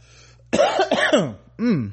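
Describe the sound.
Someone coughs after something went down the wrong way: a few harsh, raspy bursts in quick succession, with one more separate cough after a short pause.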